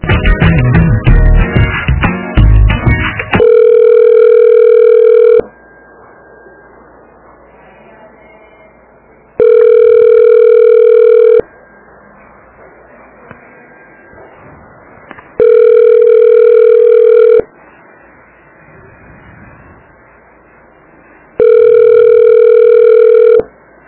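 A telephone line plays a steady, loud tone while a call is being transferred to another extension. Four long beeps of about two seconds each repeat at even gaps, after a short burst of busier sound at the start.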